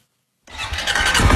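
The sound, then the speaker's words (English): A four-wheeler engine starts up on a southeast Nebraska ranch. Silence breaks into a sudden mechanical catch, then the engine quickly builds to a rough, steady running rumble. “is driving me across his southeast Nebraska ranch on a four-wheeler”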